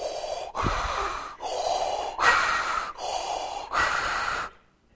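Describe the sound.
Heavy mechanical masked breathing imitated by a voice, for a villain dressed all in black: six harsh, hissing breath strokes alternate in and out in a slow, steady rhythm, loud and even, before stopping.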